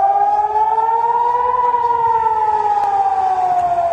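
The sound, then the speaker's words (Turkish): Air raid siren sounding over northern Israel during a missile attack: a loud, continuous wailing tone that rises slightly, holds, then sinks a little toward the end, steady throughout with no voices. “Özellikle ülkenin kuzeyinde siren sesleri duyuldu.”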